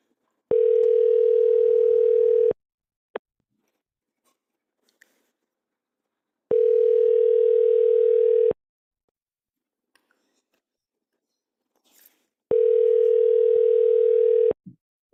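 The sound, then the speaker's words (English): Ringback tone while calling someone back on the telephone. Three steady, even tone bursts of about two seconds each are separated by long silent gaps, with faint small clicks in between and no talk. “Yeah, give him a call back.”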